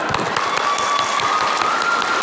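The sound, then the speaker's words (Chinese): Dense applause from an audience congratulating a performer, a steady crackle of many hands clapping at an even, loud level from start to finish. “给于氏鼓鼓掌。”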